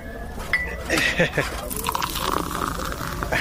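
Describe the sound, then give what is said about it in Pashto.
Tea being poured into a cup, with light clinks of the cup and a soft trickle of liquid under people talking. “ته صبر چې یوه پیاله چای درته واچوم چې ستړی شوی به.”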